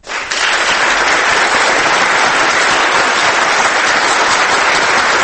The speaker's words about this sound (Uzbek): Keyin chapaklar, gulduros qarsaklar.